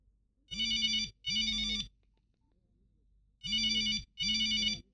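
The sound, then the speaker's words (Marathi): A telephone rings in four loud, even electronic bursts grouped in two pairs, with a silent pause between the pairs and no talking. “आणि phone वाजला.”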